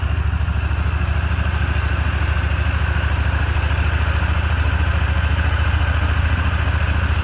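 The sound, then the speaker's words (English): Motorboat engine running during flood rescue work, a steady, loud, low rumble with a fast even throb and a faint higher whine, unchanging throughout with no voices. “We've been rowing the past 45 minutes and finally came across some people with a motorboat.”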